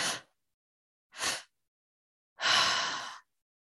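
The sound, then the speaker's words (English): Open-mouth breathwork breathing: two short, sharp inhalations into the belly and then the chest, followed by one longer, fuller exhale like a sigh, with silence between the breaths. “you want to do it with an open mouth. And so you're breathing into the belly, into the chest, and then exhaling.”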